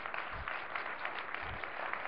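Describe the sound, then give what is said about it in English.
An audience at a lecture event claps in faint, steady applause, with soft, dense clapping throughout. “please stand up, and we really need to applaud you”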